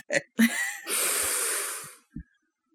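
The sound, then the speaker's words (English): An angry, exasperated breath: a couple of short breathy sounds, then a long, forceful hissing exhale lasting about a second, followed by a brief soft knock and silence. “I heard the anger in that breath.”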